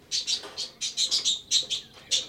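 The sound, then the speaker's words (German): A caged bird chirps in a quick series of many short, high, bright tweets, fairly even in loudness, with no talking. “Der Vogel sitzt da im Käfig.”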